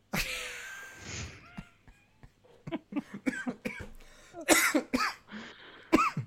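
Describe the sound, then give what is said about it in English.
A coughing fit set off by laughing: many irregular, harsh coughs in uneven bursts with short gasps between, growing louder toward the end. “I made myself laugh into a coughing fit.”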